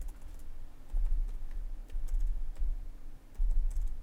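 Keys tapped on a computer keyboard give a soft, bassy clatter of many quick keystrokes in uneven bursts, faint and without talk.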